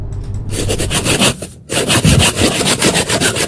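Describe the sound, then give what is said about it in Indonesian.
Bamboo being cut and its tip sharpened, heard as loud, steady rhythmic sawing strokes across the wood with a short break partway through, then the strokes resume; no voices. “Ini adalah ilustrasi bambu yang dipotong kemudian diruncingkan ujungnya.”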